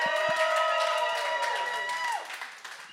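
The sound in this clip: Crowd cheering and clapping for the band Bread of Stone at the Creation NE 2017 event, with sustained whooping voices over applause that drops away after about two seconds.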